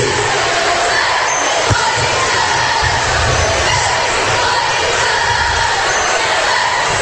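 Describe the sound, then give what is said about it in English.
A crowd in a gym at a basketball game, with a free throw bouncing off the rim. Steady, loud crowd noise runs throughout, broken by a single sharp knock early on. “And right off the rim, no good.”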